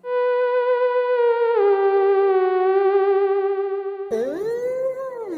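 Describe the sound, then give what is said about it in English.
A theremin plays a sustained, wavering tone with steady vibrato. The pitch steps down slightly, holds, then swoops in a quick glide near the end. The instrument sounds alone, with no voices. “Is a theremin a musical instrument or an animal? It sounds like this.”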